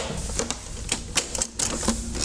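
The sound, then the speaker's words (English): A Betamax video cassette recorder ejects a tape with a quiet run of mechanical clicks and light clatters, spaced irregularly. “Compare ejecting a tape on the Betamax to the VHS. First, watch the Betamax.”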